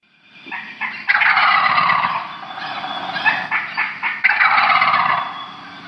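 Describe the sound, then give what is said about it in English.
A wild turkey gobbles: a loud, shrill, throaty jumble of rattling notes in several overlapping bursts lasting about five seconds, with no voices. “Of course, that was the gobble of the wild turkey.”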